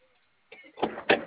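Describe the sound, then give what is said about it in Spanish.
A door opening in a faulty door system, heard as a soft mechanical start followed by two louder clunking bursts in quick succession. “Bueno, abrimos la puerta para habilitarla.”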